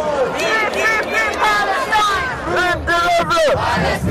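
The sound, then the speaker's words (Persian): Pro-Palestinian protesters demonstrate in the streets of Malmö, many voices shouting and chanting together in a loud, dense, continuous roar. “پیش از اجرای خانم گولان، معترضان طرفدار فلسطین و تعداد کمتری از معترضان طرفدار اسرائیل نیز در خیابان‌های شهر مالمو دست به تظاهرات زدند.”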